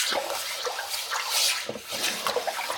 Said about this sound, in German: da hört man, wie ich jetzt nämlich nicht mehr den Schwamm nehme, sondern die Bürste.